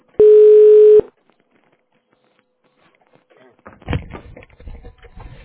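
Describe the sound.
A single telephone ring tone sounds while a call connects to a sales department. It is one steady, sustained electronic tone lasting under a second, followed by silence and then a voice beginning to speak.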